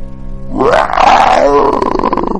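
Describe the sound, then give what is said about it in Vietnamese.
A deep, loud roar from a six-legged beast bursts in after a low rumbling start, then swells into a long, harsh, growling bellow that holds strong to the end, with no talking over it. “Lục túc đao trì gầm lên một tiếng”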